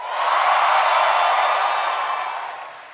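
An audience at a Comic-Con event cheers in a broad roar of crowd noise that swells quickly, holds through the middle and then gradually tapers off.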